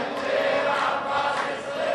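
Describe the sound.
A large crowd at a religious gathering chants takbir in unison. The dense, sustained roar of massed voices holds steady and loud throughout.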